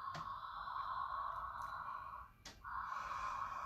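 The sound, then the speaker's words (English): Constricted throat breathing, as if fogging a mirror at the back of the throat: a long, steady hissing breath with a hollow tone, a brief break, then another breath begins. “And do the same as if you have a mirror at the back of your throat to fog up the mirror back there. Inhale.”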